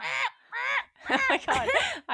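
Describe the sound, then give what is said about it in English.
A human voice imitates a loud bird squawking, giving a few harsh, raspy caw-like cries in quick succession. The later cries are longer and more broken. “and there's like a bird squawking in the background really loud.”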